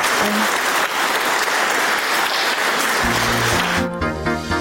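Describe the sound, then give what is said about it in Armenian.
Loud, sustained applause from an audience after a speech, with dense, even clapping throughout and a few low tones entering near the end. “ելույթն ընդունել են բուրըն ծափահարություններով”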